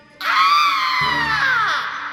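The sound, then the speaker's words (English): A witch lets out a long, shrill scream, a sustained high-pitched harmonic wail that stays loud for nearly two seconds with no other sounds around it. “The witch screamed.”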